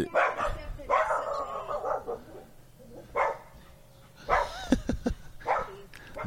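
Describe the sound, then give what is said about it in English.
A dog barks in several sharp bursts, moderately loud, separated by quieter gaps. “dog alert.”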